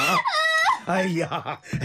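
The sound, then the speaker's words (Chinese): A person crying in loud, strained bursts, a long high wail followed by a few broken, shaking sobs. “别哭，你别哭嘛。”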